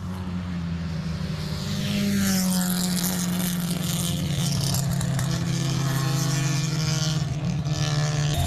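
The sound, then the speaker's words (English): Wolseley car engine exhaust note, a loud, steady droning roar with a deep low tone that holds throughout, rising slightly in intensity after the opening seconds. “I want to get the exhaust notes.”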